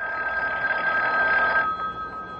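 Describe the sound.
A telephone rings with a steady, bright electric bell trill that holds for about a second and a half, then cuts off, leaving only a faint background hum.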